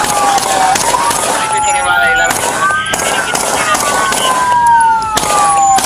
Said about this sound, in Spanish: El tiroteo fue tan descomunal que a los oficiales se les vio recargar sus pistolas por lo menos dos veces.